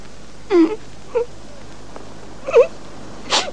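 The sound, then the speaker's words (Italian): A woman crying in four brief wailing sobs, each short and separated by quiet pauses, at moderate loudness. “Ma che fai? Ti metti a piangere per questo?”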